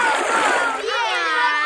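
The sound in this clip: Paddles splashing water during a paddling race, a continuous loud wash of splashing with voices heard over it.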